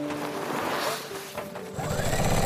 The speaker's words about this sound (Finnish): Hän on kyyristynyt ompelukoneen eteen ja syöttää kangasta sen läpi. Ulkona sade hakkaa ikkunaan, mutta ääni hautautuu ompelukoneen lakkaamattoman surinan alle.